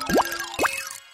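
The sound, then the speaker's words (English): A 'Hey Story Go' cue sound effect: two quick, bubbly bloops, each sweeping sharply upward in pitch, the second about half a second after the first, loud and alone. “And remember to listen for that Hey Story Go sound. It sounds like this.”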